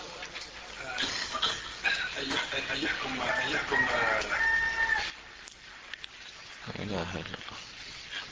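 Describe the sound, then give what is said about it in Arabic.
A human voice imitates a rooster crowing: a long, wavering, strongly voiced call held for several seconds, then dropping to quieter, lower sounds. “هذه حكاية صياح ديك، وحكاية صياح الديك لا أظن أنه يصح الدعاء عندها”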